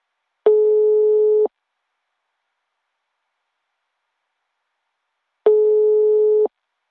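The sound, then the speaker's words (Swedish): Telephone ringback tone on an outgoing call: two steady, mid-pitched one-second tones separated by about four seconds of silence, clear and alone. “Nu ska vi ringa upp eh, min polare Tommy här.”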